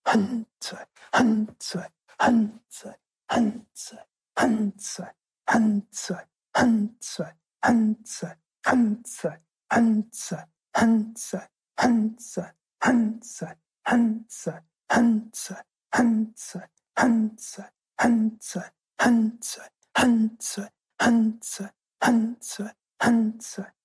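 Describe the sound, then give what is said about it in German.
Kapalabhati rapid yoga breathing, heard as many short, forceful exhalations pushed out through the nose in a steady, quick rhythm of roughly one and a half per second. The breaths are loud and clear, with nothing else heard. “Kapalabhati, Schnellatmung. Einatmen, Bauch hinaus und beginnen.”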